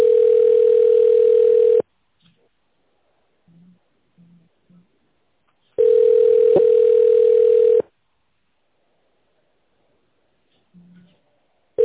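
A steady, pure telephone line tone sounds while a call is being transferred. It comes in two long unbroken stretches separated by near silence, with a few faint short blips.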